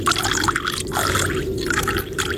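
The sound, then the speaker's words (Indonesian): Water being poured, a continuous splashing, gurgling stream that holds steady and fairly loud throughout with small fluctuations. “tuang air.”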